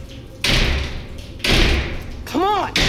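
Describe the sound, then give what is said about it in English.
A loose steel frame with bars takes several kicks, each a heavy, clattering metallic thud spaced roughly a second apart. A short voiced grunt sounds near the end. “The steel frame is loose on its hinges. I kick at the bars.”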